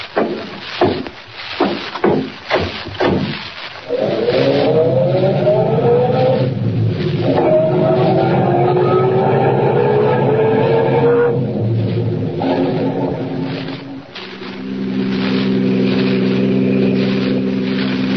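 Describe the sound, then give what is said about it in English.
A car engine drones as the car drives on toward a town at night. A few sharp knocks come first, then a steady engine hum whose pitch climbs twice before settling into a lower, even tone. “We'll drive on to the town and find a place to put up for the night.”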